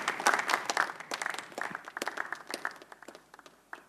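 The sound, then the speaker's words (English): Applause from the audience at a church pastors' and leaders' conference, many hands clapping in a lively burst that gradually thins and fades away. “Give Jesus a big hand.”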